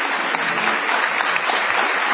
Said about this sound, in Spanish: Vamos a extender esta ovación para honrar a Patricio Barton.